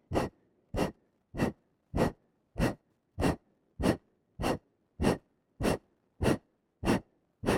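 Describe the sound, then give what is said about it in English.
Forceful exhaling breaths in a breathing exercise, pushed out fast and strong: about thirteen sharp, airy puffs in a steady, even rhythm, each short and loud, with no talk. “Push out as much air as you can. Exhale, exhale, exhale. Fast and strong, and then let the abdomen relax.”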